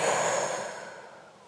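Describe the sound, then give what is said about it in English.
One long, forceful exhale as a person blows air out hard during a deep belly-breathing exercise, as if blowing out birthday candles: a breathy rush that starts strong and gradually fades away, with no talking. “As deeply as you can, breathe in. And when you exhale, blow out the birthday candles on the cake.”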